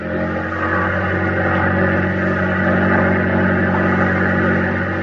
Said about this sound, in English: Helmsman, full throttle. Steady on this course.